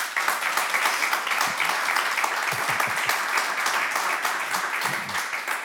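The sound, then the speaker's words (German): An audience applauds steadily, casting votes by clapping for orchestral recordings in a contest, a dense even patter of hands from start to finish with no break. “Ich rufe auf, Sie applaudieren oder eben nicht.”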